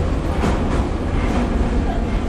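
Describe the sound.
A metro train rides along in a steady, rumbling roar of dense continuous noise with faint rhythmic swells throughout.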